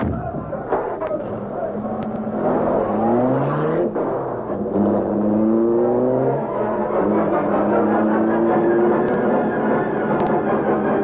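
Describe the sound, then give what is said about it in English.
A car drives off and accelerates hard, its loud engine note climbing in pitch through a few rising sweeps as it works up through the gears, then settling into a sustained high drone. “Here's the Black Beauty. I'll drive. Hurry. They're coming.”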